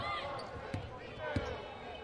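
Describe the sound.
A basketball is dribbled on the court during a women's college game between BYU and Oklahoma State, with two sharp bounces under steady commentary.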